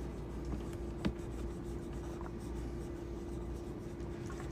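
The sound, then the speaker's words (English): Faint scratching of a pencil drawing comic pages on paper, soft continuous strokes over a steady low hum, with one brief sharper tap. “And meanwhile, we're doing the podcast. I'm drawing motherfucker on my schedule. Yeah, I'm just here wrapping up pages, man.”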